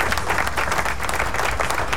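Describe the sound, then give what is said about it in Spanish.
Applause from a crowd: dense, steady clapping that holds at an even, fairly loud level from start to finish without a break. “¡Aplauso!”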